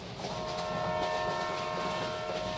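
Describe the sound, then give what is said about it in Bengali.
A running train rumbles steadily in the dark, a dense, continuous roar with a sustained high tonal whine riding above it, evenly loud throughout with no voices. “Train ছুটছে অন্ধকার ঘিরে”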